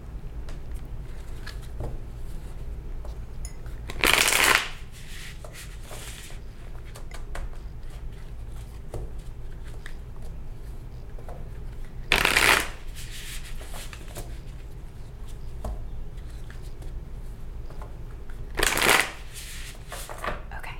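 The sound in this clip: A deck of animal spirit cards is shuffled in three short, crisp riffling bursts spread evenly apart, with quiet stretches between them.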